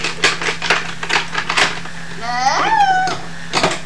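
Knife cutting cold food before it is heated on a stove, a quick run of sharp, clicky taps close together, followed by a quieter stretch.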